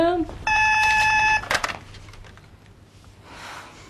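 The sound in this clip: A telephone tone as a call is placed in a wedding hall: a steady, bright tone holds for about a second, then a sharp click follows. A brief voice sounds at the start, and faint noise continues afterward.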